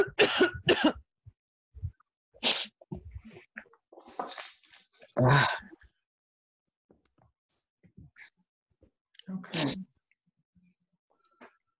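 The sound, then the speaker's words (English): Sharp, harsh coughs from a person with allergies come in a few separate bursts, some in quick pairs, with quiet gaps and softer throat sounds between them. “I don't have any respiratory problem. I just have a cough.”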